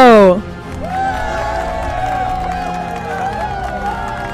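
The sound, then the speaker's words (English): Studio audience applause and cheering as a lawyer host of a law, sports and entertainment show is introduced: a steady crowd roar with wavering whoops, sustained and fairly loud throughout. “Ladies and gentlemen, put your hands together for Josh Scarpello!”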